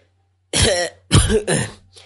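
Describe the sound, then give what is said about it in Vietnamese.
Harsh coughing and throat clearing from someone walking in, three rough bursts in quick succession, heard alone with no talk. “Kiều Cố dắt theo Giang Quá vừa ho vừa đi tới”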